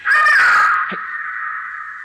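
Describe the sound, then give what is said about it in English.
A crow lets out a single loud, harsh, drawn-out caw that eases into a thinner, quieter sustained tail. “What was that? Bird.”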